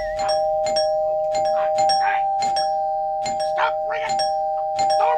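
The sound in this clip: A doorbell rings over and over in a comedic Christmas scene, with many sharp, evenly bright chimes repeating across the whole stretch above a steady tone. Voices briefly come through between some of the rings.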